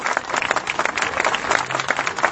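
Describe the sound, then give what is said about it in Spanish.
A crowd claps loudly to welcome a traveling school arriving in Paraná, a dense, fluttering wash of many hands at a strong, steady level with slight swells, and no voices over it. “Paraná y la vamos a recibir con un fuerte aplauso, compañeros,”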